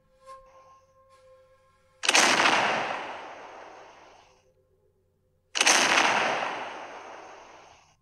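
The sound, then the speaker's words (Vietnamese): Two huge cannon blasts during a battle by city walls, each a sudden loud boom that trails into a long rumbling decay lasting about two seconds. A silent gap separates them, and faint minor sounds come before the first. “Hai tiếng nổ lớn kinh thiên vang lên, đất núi rung chuyển, tường thành trên mặt đất đều rung động, loàn trướng của hoàng đế cũng lay động khẽ một trận. Người nào khai pháo?”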